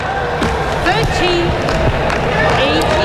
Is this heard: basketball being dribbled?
yes